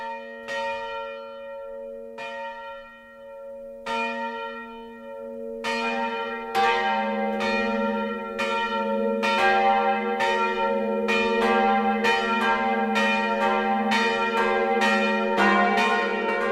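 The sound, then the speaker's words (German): Noon ringing of church bells at a parish and pilgrimage church in Upper Franconia: single, widely spaced strikes at first, then more bells join in a loud, dense, continuous peal of overlapping ringing tones. “Das Mittagsläuten kommt heute von der Pfarr- und Wallfahrtskirche Mariä Heimsuchung im oberfränkischen Marienweiher.”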